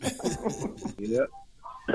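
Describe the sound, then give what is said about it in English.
Coughing among voices, with short rough coughs mixed into talk and light laughter. “Somebody smoking? Somebody smoking? Who coughing?”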